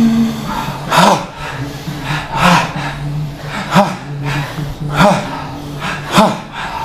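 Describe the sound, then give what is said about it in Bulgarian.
Bhastrika breathing: deep chest breaths with sharp, forceful exhalations, five strong bursts at a steady, even rhythm over continuous breathy air noise. “бастрика дишане. Това е гръдно дишане, дълбоко от гърди и рязко издишване.”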